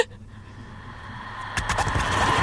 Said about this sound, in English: A bus driving over the bridge on Kinzie.